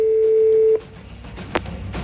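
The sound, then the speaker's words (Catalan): A mobile phone rings with one steady, mid-pitched electronic tone that holds for under a second and then cuts off abruptly, leaving faint background noise and a brief soft bump. “Que soni el mòbil vermell.”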